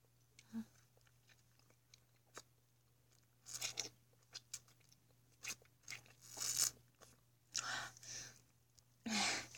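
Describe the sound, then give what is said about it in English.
Crunchy bites of fresh cucumber, several sharp crisp crunches spaced irregularly with soft chewing and small mouth clicks between them, faint and close with no talking. “Isn't cucumber so tasty? Tastes just like summer.”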